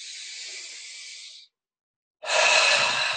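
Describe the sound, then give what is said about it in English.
Guided breathwork: a soft airy hiss of breath through the nose lasts about a second and a half. After a short silence, a louder, rougher outward breath runs to the end. “Breathe in the nose. Let it go. Breathe in. Let it go.”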